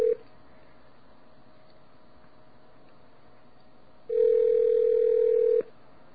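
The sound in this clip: A steady telephone dial tone hums briefly at the start, drops away into a quiet stretch, then returns loud and unbroken for about a second and a half before cutting off.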